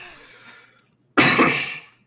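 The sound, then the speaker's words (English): A sudden harsh cough from a person in the middle of a conversation: one loud, rough burst after a moment of near silence, with no talk over it. “Why am I coughing all of a sudden?”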